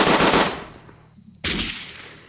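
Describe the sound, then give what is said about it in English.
A gun sound effect with two loud, harsh blasts: the first fades out slowly, then a second cuts in abruptly and trails off. No voices are heard. “Oh, man, this would be perfect for all your gun sound effects.”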